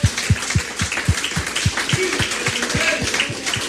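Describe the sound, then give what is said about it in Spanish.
Congregation applauding at a church service, with steady rhythmic clapping in a regular beat under a general wash of many hands, fairly loud and continuous with no talk over it. “Dele fuerte el aplauso al Señor.”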